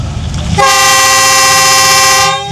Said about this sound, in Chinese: 伴随着雄浑悠长的汽笛鸣响，满载着阿克苏本地棉布、饲料添加剂等货物的集装箱班列从阿克苏纺织工业城铁路专用线缓缓驶出